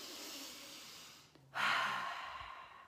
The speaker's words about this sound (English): we can take 1 to 2 to 3 deep breaths, maybe 10.